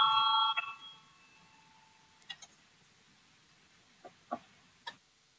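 A parliament voting bell rings at the start, a bright, steady electric tone that cuts off within the first second. Afterward a faint hum lingers, and a few sparse clicks follow in the quiet.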